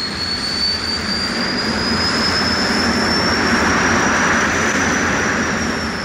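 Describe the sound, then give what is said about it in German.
Airplane landing on a runway, heard as a loud, steady jet roar with a high whine that holds throughout at an even level, with no voices. “Auf Landebahn 1 gelandet.”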